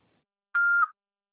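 Answering machine beep: a single steady mid-pitched tone lasting about a third of a second, clean and alone with no voices.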